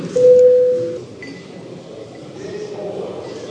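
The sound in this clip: An electronic bell tone rings in a parliament chamber to call members to a vote: one steady, fairly loud tone lasting just under a second, followed by a low, continuous background murmur.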